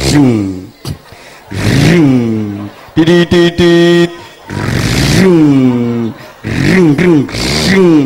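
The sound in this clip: A human voice imitates the engine of a homemade clay toy car, producing a series of loud, buzzing vroom sounds that rise in pitch like revving, with brief clicks between them.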